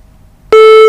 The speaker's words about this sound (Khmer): បានដាច់ទៅវិញហើយចាអញ្ចឹងអាចហៅទូរស័ព្ទចូលរួមសាជាថ្មី